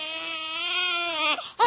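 An infant crying: one long, sustained, high wail that holds steady before breaking off, followed by the start of a fresh cry.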